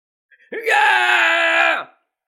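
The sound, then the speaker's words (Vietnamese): A shrill, terrified scream from an immortal in a fantasy audiobook: one loud, sustained cry of about a second and a half, heard alone after a couple of brief faint sounds, holding steady before dropping off at the end. “Vị chân tiên kia kêu lên một cách thê lương thảm thiết, âm thanh dọa người, giống như là gặp phải chuyện gì vô cùng đáng sợ. Thế mà lại phát ra tiếng gào bén nhọn cực kỳ kinh khủng như vậy.”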